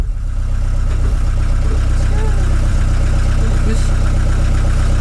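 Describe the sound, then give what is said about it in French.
Motor vehicles driving on a road, with a loud, steady low engine rumble that drones on without a break. “Ça y est, on est sur la route. Il va falloir faire doubler tous ces véhicules motorisés.”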